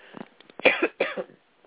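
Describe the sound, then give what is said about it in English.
Throat clearing from a talk-radio host: two rough, gravelly bursts in the middle, with a few softer catches before and after. The sound is narrow and muffled, with no talk. “I'm going to jump to a tune and clear my throat.”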